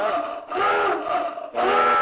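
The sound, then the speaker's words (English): Submarine horn sound effect, played as buzzy, strongly harmonic blasts with brief breaks between them. The tone stays loud and steady in pitch throughout. “We'll get the horn going here. Submarine.”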